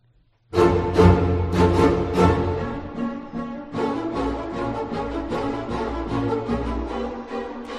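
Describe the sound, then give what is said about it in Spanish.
Iconic horror film score music: shrieking, stabbing strings strike repeatedly and loudly after a short silence. The sharp, piercing attacks come in a relentless, uneven rhythm over a sustained low string drone. “¿Cómo es la música, eh? Es que solo escuchar esto ya da miedo. Es que esta música es una de las más icónicas.”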